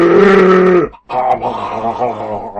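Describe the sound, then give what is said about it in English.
Man's voice imitating loud snoring like an enormous boar: a long, rough, buzzing grunt, a brief break, then a second, longer snort that wavers in pitch. “Have you not heard the man when he's asleep? It's like lying next to an enormous boar.”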